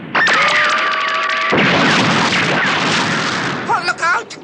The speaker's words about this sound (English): Laser beam, fire now. Laser beam ready, Doctor. Firing now.